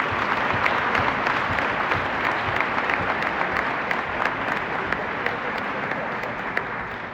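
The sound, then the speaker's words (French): Audience applause at a talk about workers fighting a factory closure: a thick, even patter of many hands that continues throughout and fades slightly toward the end. “Un applaudissement.”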